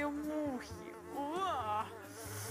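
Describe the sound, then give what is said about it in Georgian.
Flies buzzing, yellow dung flies swarming over fresh meat, a steady insect drone whose pitch wavers up and down throughout, with no voices. “მწვანე, ლურჯი. ყვითელი ნეხვის ბუზები.”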